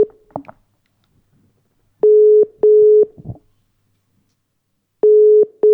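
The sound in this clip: Ringing tone of an international phone call: a few clicks, then two steady, mid-pitched double rings separated by a long pause, with the second pair cut off at the end.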